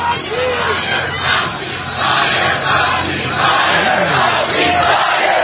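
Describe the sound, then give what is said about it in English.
A rally crowd chants "fire Fauci" in unison. Massed voices stay loud and continuous throughout, with rhythmic surges of shouting. “We're chanting fire, Fauci.”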